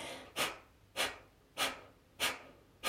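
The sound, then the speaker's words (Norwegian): Forceful exhalations through the nose during a breathing exercise, with the belly pulled in sharply to push the air out. Five strong, breathy puffs come at an even, steady rhythm, each rising quickly and trailing off. “Trekk magen raskt inn, sånn at du skyver lufta ut gjennom nesa i ganske kraftige utpust.”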